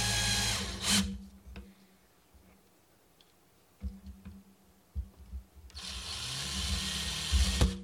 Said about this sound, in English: Drilling. Screw that in there for us.